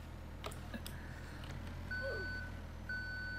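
Electronic reversing beeps from a truck backing up in a Roblox video game, faint steady tones in two drawn-out stretches over a quiet background hum.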